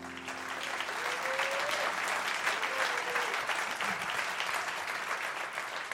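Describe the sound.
An audience applauds an Achievement Award winner, with steady, dense clapping that holds at an even level throughout.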